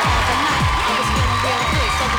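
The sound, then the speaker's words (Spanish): Crowd applause and cheering, loud and steady over a couple of seconds, with shouting voices mixed into the clapping. “Aplausos para los que están conectados con nosotros desde muy temprano.”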